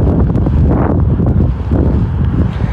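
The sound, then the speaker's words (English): Wind blowing outdoors buffets the microphone in a loud, steady low rumble that runs unbroken from start to finish, with no voices. “Bit of wind, you can hear that”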